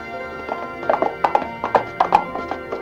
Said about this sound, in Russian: Красноармейцы переправляются вместе с лошадьми или на лодках.